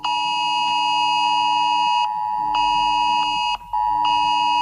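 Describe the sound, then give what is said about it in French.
The FR-Alert emergency phone alert tone sounds during a test in New Caledonia. A loud, steady electronic tone rich in harmonics is broken by a few brief gaps, with no voices. “Le dispositif FR Alert a été testé sur le territoire.”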